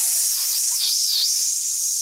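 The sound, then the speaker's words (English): A voice imitates a hissing sound: a steady, breathy, high hiss that holds for about two seconds with little change. “you hear in front of you this sort of hissing sound, this”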